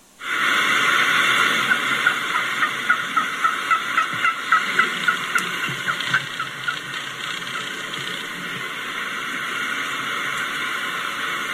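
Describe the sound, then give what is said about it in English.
A wild turkey hen gives a walking yelp: a long run of many short, evenly spaced yelps with a rolling rhythm, over a steady background hiss. “This walking yelp is a hugely important call. Let's take a listen to a walking yelp.”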